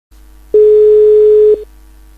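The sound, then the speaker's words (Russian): A telephone line tone as a number is dialled: a low hum, then a single steady tone lasting about a second that stops abruptly, leaving the faint hum. “Наберем номер.”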